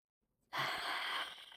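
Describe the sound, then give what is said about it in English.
One deep, breathy inhalation that starts abruptly, holds loud and airy, then tapers off as it ends, with no speech. “Could you just take a deep breath?”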